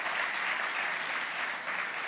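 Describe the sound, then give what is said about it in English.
Audience applauding to welcome students and thank their sponsors: a steady, even round of clapping with no voices, holding a constant level throughout. “So please join me in a round of applause to welcome the students and thank their sponsors as well.”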